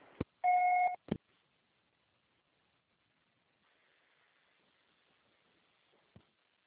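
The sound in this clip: A single short, steady telephone beep after an automated operator recording, framed by clicks, then near silence with faint hiss and one last soft click.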